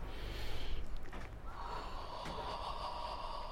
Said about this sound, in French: Alors, on inspire bien.